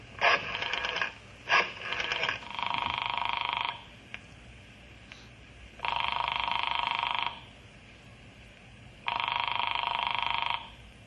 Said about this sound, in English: I'm going in the office now and call Dr. Horace Talbot.